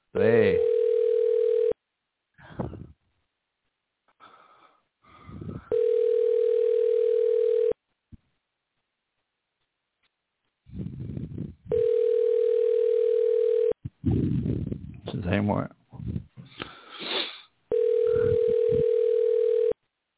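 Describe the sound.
Telephone ringback tone while calling someone live on air: four long, steady, buzzing tone bursts separated by pauses, with a voice talking in the gaps between rings.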